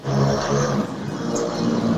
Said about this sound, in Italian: salutiamo il motorino intanto